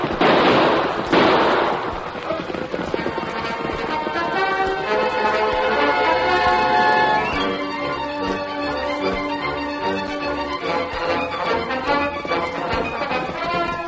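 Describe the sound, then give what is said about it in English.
Gunshots fired over people's heads: a couple of sharp, loud bursts in quick succession at the start, followed by a long stretch of music. “Use your gun, Tonto, but shoot over their heads.”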